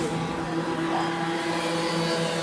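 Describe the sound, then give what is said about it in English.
Junior motor race cars racing in a final: a steady, continuous droning engine buzz with a strong tonal hum, unbroken throughout and without talk. “The juniors have done their heats and are now racing in their first final.”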